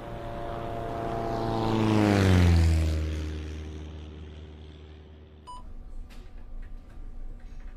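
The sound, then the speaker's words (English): An aircraft engine drones as the plane flies by, swelling in loudness and then dropping steadily in pitch as it passes and fades. Faint beeps and crackling static follow. “We have an unidentified aircraft approaching from the south.”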